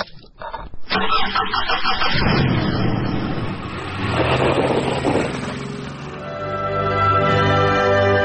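A car engine cranks with a few rough bursts, catches and roars to life, then keeps running loudly with a swell in volume near the end.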